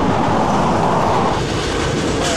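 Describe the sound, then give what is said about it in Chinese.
A train passes with a loud, continuous rumble and rattle of rail cars. The steady, dense roar holds evenly throughout with no pauses. “看见火车了”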